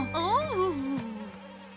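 An insect buzzes in a cartoon with a loud, wavering tone that climbs and then drops in pitch before fading.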